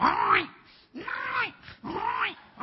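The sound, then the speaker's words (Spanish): A human voice imitates a crying pig with three drawn-out, whiny squeals in close succession, each arching up in pitch and falling back, loud and strained. “acá la chancha llora”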